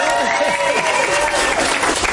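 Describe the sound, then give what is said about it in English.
A round of applause marking Ozzy Osbourne Day in Birmingham, with steady, dense clapping from many hands and voices talking over it throughout. “Yeah, that's a round of applause, I think.”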